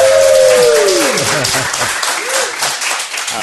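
A live show audience bursts into applause. The clapping is loud and dense, holds for about three seconds, then eases slightly toward the end.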